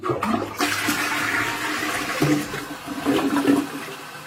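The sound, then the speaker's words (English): Toilet flushing with a steady, loud rush of water. Low, wavering tonal moans surface within the rush in the middle and near the end. “You can hear howls of distress from a toilet in this video. I'm going to play it. Here you go, chat room. I'm just going to play this terrifying toilet.”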